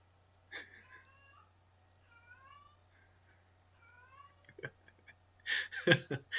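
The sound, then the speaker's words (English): A female cat calls out with repeated, plaintive, wavering meows after catching a mouse. The meows are fairly faint and spaced apart, followed by a louder, noisy burst at the end. “that kitty cat is such a pal to me. It's so funny. That's the little the mascot for the studio. And she's calling out like that because she brought down her little mouse.”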